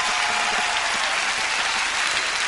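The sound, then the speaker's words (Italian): Audience ovation for a live performance of a song: dense, sustained applause with many overlapping claps, holding at an even, loud level from start to end. “Ovazione da parte del pubblico.”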